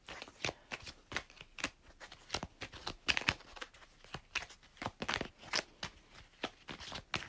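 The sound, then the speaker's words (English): Tarot cards being shuffled: many quick, crisp papery bursts and flicks in an irregular rhythm, faint, with no talking. “Two cards jumped out for you. They have something they want to say.”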